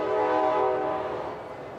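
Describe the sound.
A train horn sounds at a small railway station: a steady, multi-toned blast lasting about a second that fades into a softer rumble of the train.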